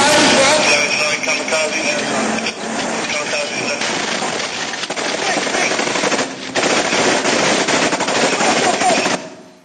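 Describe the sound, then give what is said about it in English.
Combat sounds of an IED attack in Iraq: loud, dense bursts of rapid gunfire roar almost without pause for about nine seconds, with harsh crackling noise and a brief dip in level midway. “And so that's just to give you a little sight and sounds of what you might have experienced. So it was a standard IED, as we just heard.”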